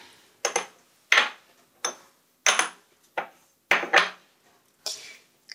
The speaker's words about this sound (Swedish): Jag tar det färg från en tub här och klickar ut på en liten porslinskopp. Ja. Blandar ihop lite